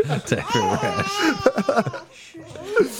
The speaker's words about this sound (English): That was the most fired up rant yet, though. By yeah, well, because I scared the shit out of her by accident. Something really is chapping that baby's hide.